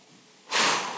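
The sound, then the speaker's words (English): An audience taking a deep breath together, a broad, airy rush that swells suddenly and holds for about half a second before easing slightly. “Do me a favor, everyone. Take a deep breath for me. Thanks.”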